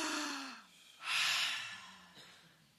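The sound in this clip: A deep breath drawn in during a guided group breathing exercise: a soft, airy rush swells after a brief voiced sound and then tapers away quietly.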